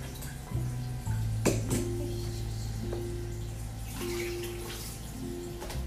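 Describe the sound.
Running tap water rinsing tomatoes, a steady quiet splashing stream with a few brief clatters over a low, even hum.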